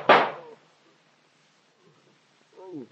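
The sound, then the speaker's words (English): A single sharp gunshot in a radio drama, a loud burst that fades within half a second into near silence, followed briefly by a man's voice. “Ain't right to shoot a man like that.”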